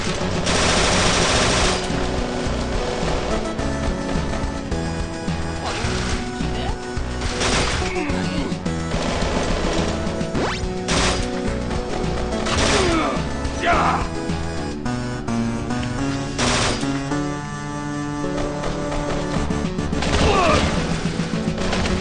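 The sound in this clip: Gunfire in a video game: repeated bursts of rapid automatic shots and crashing impacts recur throughout over a dense, busy backdrop.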